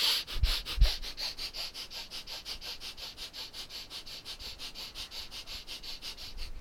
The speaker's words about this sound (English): So once again, let's do the breath of fire.